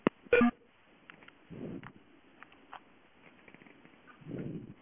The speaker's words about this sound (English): I just asked them if they can dial 1-800 number, and then they dialed it. Well, actually, that one in New York. Watch, I'll do it with that one in New York.